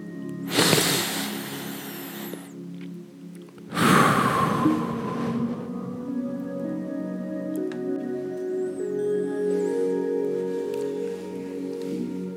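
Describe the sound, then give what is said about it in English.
A deep breath is drawn in and then let out: two long, airy breaths, the inhale followed a moment later by a fuller exhale, over a faint steady drone. “Breathe in. Breathe out.”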